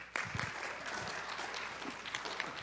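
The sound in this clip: Audience applause welcomes a speaker in a church, a steady patter of many clapping hands that holds at an even level from start to end.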